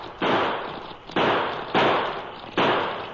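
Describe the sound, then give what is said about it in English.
Four loud, sharp gunshots from a pocket model revolver ring out in quick succession, each crack followed by a long, slowly fading tail. “pulled a pocket model revolver. In quick succession, he triggered out 6 shots.”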